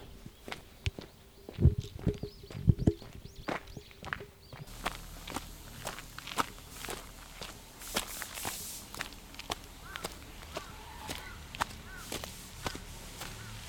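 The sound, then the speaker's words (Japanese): Footsteps walking along an outdoor path toward a cluster of ancient hillside cave tombs, near solar panels. Many steady, fairly even steps continue throughout, a few louder scuffs near the start, with no talking. “黒岩横穴墓群、に向かって歩いてるんですけど、結構歩いて来てる割には全然行き着く気配がないんですけど”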